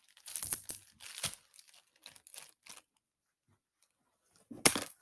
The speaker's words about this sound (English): Opening up that envelope.